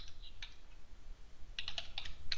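Someone types on a computer keyboard with faint, soft clicks. A brief burst of keystrokes comes first, then a pause, then a quicker cluster of taps.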